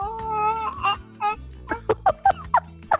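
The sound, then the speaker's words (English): A person imitates a chicken, starting with drawn-out warbling vocal tones, then breaking into a quick run of short, clipped clucks. “Do you want to hear my chicken? Because I grew up with chickens.”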